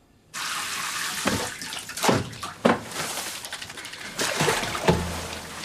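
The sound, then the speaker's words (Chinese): Water running into a hot bath while someone bathes fully clothed: a steady rushing stream with several louder splashes and sloshes breaking through, with no talk. “你在干什么？ 洗澡啊，怎么了？ 穿着衣服洗澡？”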